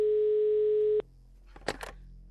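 A single ringback tone sounds on an outgoing telephone call: one steady, mid-pitched beep lasting about a second, then it cuts off into near silence broken by a couple of short noisy bursts.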